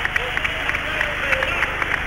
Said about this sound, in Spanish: Medalla de plata, España, subcampeona olímpica. Y el público ovaciona al equipo español.